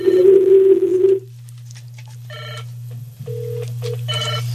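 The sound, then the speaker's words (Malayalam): Telephone ringing signals an incoming call to a radio show: short electronic ringing bursts and a steady tone sound over a low, constant hum, following a louder opening tone. “ഇപ്പോൾ അടുത്തൊരു കോളുണ്ട്.”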